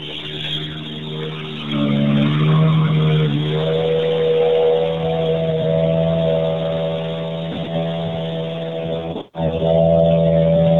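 Hybrid rally car engine at a stage finish: a loud, steady rumble with strong tonal harmonics whose pitch shifts as it revs, broken by one brief sharp cutout near the end, with no talk.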